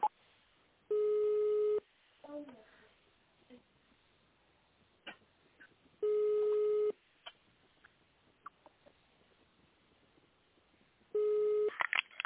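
Telephone line tone plays while a caller waits on the line for a company operator: three short, steady beeps spaced about five seconds apart over a narrow, muffled line, with faint scattered noises between them.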